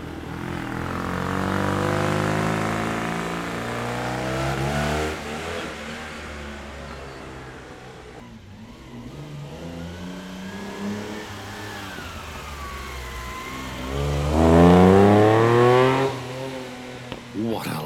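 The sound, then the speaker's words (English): Rally cars race on an airport circuit during a tarmac rally event. Engines rev and accelerate in loud harmonic tones that rise and fall, ending with a strong surge. “I just returned from watching a segment of the Target Florio Australia at Tyabe Airport. This is day two of the event.”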